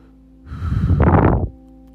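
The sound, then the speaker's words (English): A deep breath drawn in during a guided breathing exercise: a long, soft, airy inhale lasting about a second, rising into a broad breathy rush, then stopping abruptly, with no talk. “Take a deep breath.”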